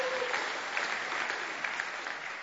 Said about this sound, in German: Auch ein Applaus für dich.